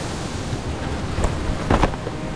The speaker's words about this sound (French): j'eus l'impression, en prononçant ce mot, que les vagues dehors claquaient un peu plus fort.